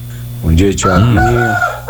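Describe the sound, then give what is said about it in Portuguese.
A rooster crows loudly, its rising and falling call overlapping a man's voice. He speaks a short greeting in Portuguese at the same time. “Olha o galo cantando, ó.”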